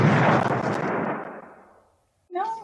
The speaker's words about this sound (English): You can keep shooting him. Your gun still works.